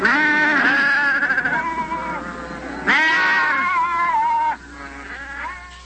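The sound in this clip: Goats bleat in a few wavering, quavering calls that bend up and down in pitch, fairly loud and close together, with no clear talk over them.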